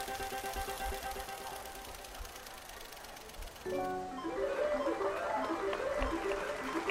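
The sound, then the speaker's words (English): A spinning prize wheel ticks in a rapid, even clatter, faint throughout, while a musical melody enters partway through and plays over it. “Let's spin the wheel. Let's find out. It's a random draw.”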